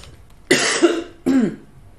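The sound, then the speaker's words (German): Two sharp, loud coughs from one person, separated by a short pause. The first burst is longer and more drawn out, the second shorter, each breaking abruptly out of a quiet background. “Einmal husten.”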